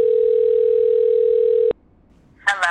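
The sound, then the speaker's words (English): A steady single-pitched telephone tone sounds as a call is placed, holding loud and unbroken for under two seconds before cutting off abruptly into silence. “Okay, cool. Let's call Shuri.”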